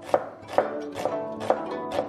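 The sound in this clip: A knife chops red onion as a finishing topping for a banh mi sandwich, giving five sharp, evenly spaced cuts at a steady rhythm with no talk.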